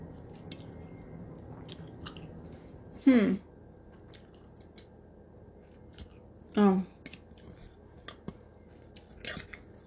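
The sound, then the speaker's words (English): Chewing brownies: a few wet, squishy bites stand out over a faint background hiss, with small scattered clicks of the mouth between them. “I'm just gonna be eating my brownies.”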